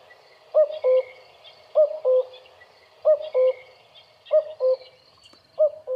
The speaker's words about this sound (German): der klassische Gesang, auch da ist ein bisschen Variation, den man am häufigsten hört, das ist der Zweisilben Kuckuck.